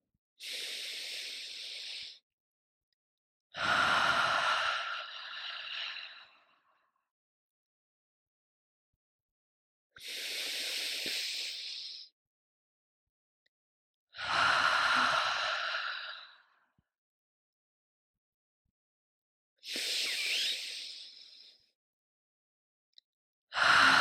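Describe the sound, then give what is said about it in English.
Three slow, deep breaths, drawn in through the nose and let out through the mouth. Each is a soft, airy inhale followed by a longer, fuller exhale, with quiet pauses between them. “let's take three deep breaths in through the nose, out through the mouth”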